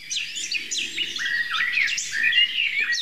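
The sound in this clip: Birdsong around an old oak tree: many overlapping high chirps, trills and whistles sound continuously at a steady moderate level, with no voices.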